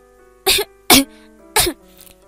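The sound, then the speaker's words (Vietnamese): A woman gives three loud, dry, harsh coughs in quick succession, as if choking on a foul smell, with short gaps between each burst. “Tiếng Mạnh Văn Yên ho khan truyền ra, dường như là bị gây mũi bởi một hồi thối, khiến nàng sặc sụa.”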